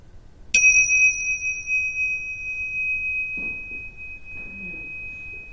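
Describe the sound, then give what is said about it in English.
A single meditation bell is struck once to close a meditation, giving a clear, bright, high ring that sustains and slowly fades over several seconds in near silence. “And I'll ring the bells to end the meditation. Let the sound bring you up out of the meditative awareness.”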